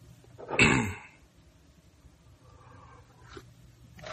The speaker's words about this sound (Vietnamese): Đến nay mà vẫn còn ho hen đâu quý vị thấy không?